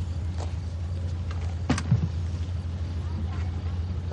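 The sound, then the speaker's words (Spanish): A car door shuts once outside a church at night in 1970s Catalonia, a single dull thump over the steady low rumble of an idling car engine. “Ve a Mari cerrar la puerta del coche y marcharse con el médico.”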